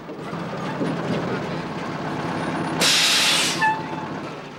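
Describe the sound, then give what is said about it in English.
A truck pulling into a yard where other trucks are parked: a steady low engine rumble runs throughout, broken by one loud, bright air-brake hiss that lasts under a second and cuts off sharply. “A short time later, the truck swings into a yard where other trucks are parked.”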